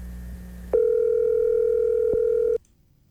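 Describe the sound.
A telephone dial tone sounds as one steady, unbroken mid-pitched hum lasting about two seconds, clear and alone over a faint background, then cuts off abruptly.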